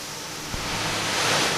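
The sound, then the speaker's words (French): Swimming pool filtration pumps run in the plant room, making a steady, loud, hissing roar that stays constant throughout. “Ça, c'est le bassin de filtration et c'est pour ça qu'il y a du bruit, il y a des pompes”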